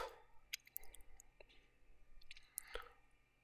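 Someone chews a cracker topped with frikandel speciaal. Soft crunchy clicks and wet mouth sounds come at an irregular pace, faint throughout.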